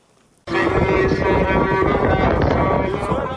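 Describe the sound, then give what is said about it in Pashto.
Strong wind blowing with dust along a march route between Lashkargah and Musa Qala in Helmand, a loud, dense roar that starts abruptly after a brief quiet moment and stays steady to the end. “دوړی او سخت باد چلیږي”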